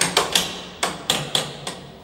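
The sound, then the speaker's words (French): Ringing metallic strikes as a sounding bar is tapped along prison cell bars to check whether any have been sawn; several sharp clanks at uneven intervals, each decaying quickly. “Alors ce qu'on entend là, c'est le sondage des barreaux. Pour voir s'il y a un barreau qui n'a pas été scié. Ah, donc on passe sur la on barre. On passe avec une barre de sondage.”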